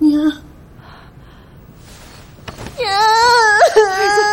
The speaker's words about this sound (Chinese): 孩子，孩子，别哭，快说，怎么回事？